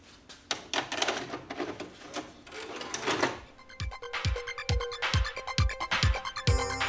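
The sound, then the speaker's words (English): VHS tape being inserted into a VCR: a stretch of plastic rattling and clatter, then a run of many mechanical thuds and clicks as the machine takes in the cassette. “Let's pop in the tape.”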